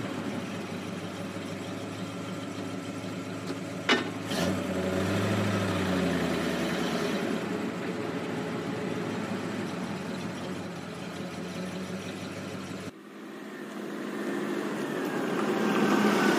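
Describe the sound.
A car engine runs steadily at idle as the car pulls out of a parking space. It is a continuous low rumble with a brief knock near the start and a shift in tone toward the end.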